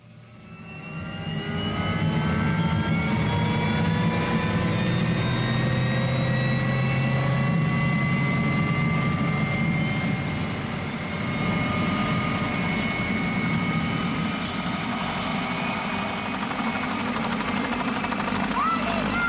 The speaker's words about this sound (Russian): Винт начинает вращаться, вертолет поднимается, цепь натягивается и рвется.